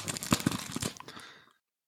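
Protective plastic film is peeled off an NFC credit card protector, giving a faint, short crinkling and tearing crackle that lasts about a second and a half before cutting off.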